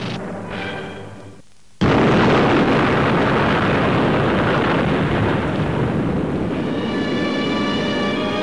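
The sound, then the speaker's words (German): An atomic bomb test explosion in the USA from an old newsreel: a fainter tonal passage, then a sudden massive blast at about two seconds that swells into a loud, sustained rumbling roar lasting to the end. “wie hier im Bericht der Wochenschau über einen Atombombentest in den USA. Soldaten und zivile Beobachter wohnten der Übung bei. Panzer werden 3 Kilometer entfernt in Stellung gebracht und dann ist es soweit.”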